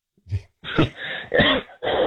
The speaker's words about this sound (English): I'm going to try and take some cough measures. I think I might be getting what you're getting.